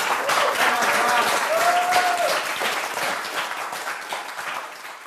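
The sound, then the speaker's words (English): Warm applause from an apologetics conference audience for the speaker of an evangelism session, with many hands clapping in a dense, continuous patter that starts strong and gradually thins and softens toward the end. “All right, everybody give John a round of applause.”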